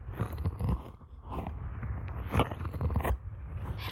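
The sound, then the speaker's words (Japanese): Wet licking and mouth sounds from an ASMR ear-licking performance, soft irregular smacks and clicks repeating close and fairly quiet, with no talking. “どうですか、耳なめの実力は。なかなかいい、”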